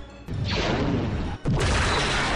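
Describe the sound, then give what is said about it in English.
An E-Web heavy blaster cannon fires on a building, two long, loud roaring bursts of noise separated by a brief gap. “That was an E-Web!”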